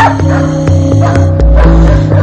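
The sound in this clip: A dog barks through a window, giving several short, sharp barks over a loud, sustained musical backdrop.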